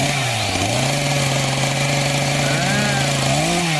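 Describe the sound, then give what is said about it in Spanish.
A chainsaw engine runs while cutting down a pine tree, a loud continuous buzzing drone whose pitch dips briefly and swells again as the throttle shifts. “Pues para allá vamos a cortar este pino. A ver si se cae.”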